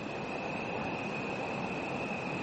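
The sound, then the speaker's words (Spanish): An airplane flies overhead in a calm night sky, a steady, even roar that holds the same loudness from start to end, with no voices. “Algunos aviones en este momento en dirección al oeste, un avión.”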